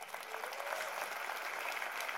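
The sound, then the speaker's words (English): Dense, steady applause from an audience at a speaking event, loud and even for the whole stretch, with no single claps standing out and no talk. “Give you all a round of applause for coming.”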